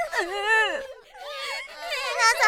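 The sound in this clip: Tearful crying voices, high and wavering, sobbing in three loud stretches with short dips between, the pitch quivering up and down as several people weep together.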